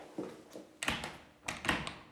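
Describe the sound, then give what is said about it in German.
A door being opened, the first door on the left along a corridor: a few faint thuds and clicks spread through a quiet stretch, with no voices. “Da, die erste Tür links aufmachen.”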